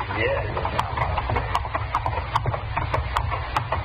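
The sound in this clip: Horses' hooves clip-clop as riders set out on horseback for a long morning ride, a steady run of many sharp, evenly paced hoofbeats over a continuous low rumble.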